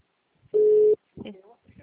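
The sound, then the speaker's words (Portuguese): A single steady telephone tone sounds for under half a second after a dropped call, followed by people talking. “Foi, caiu tá a ligação!”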